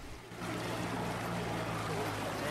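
A small boat's engine reversing on a river gives a steady low droning hum over continuous wash of churning water, holding level throughout.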